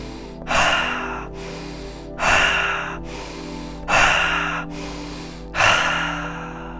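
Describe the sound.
Four forceful breaths in a circular breathing exercise, evenly spaced rushing exhales, each fading into a pause, over steady background tones.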